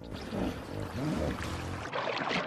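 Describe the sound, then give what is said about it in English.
Water sloshes and gurgles as a hippo dips its head underwater in a river, a steady, fairly loud rush of splashing that briefly drops off near the end before resuming. “A hippo dips its head underwater.”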